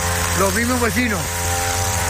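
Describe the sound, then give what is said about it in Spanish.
A power tool cuts grass in the Sansomendi neighborhood of Vitoria with a steady, droning motor hum throughout, while a voice rises and falls over it. “Vitoria, aquí estamos cortando la hierba.”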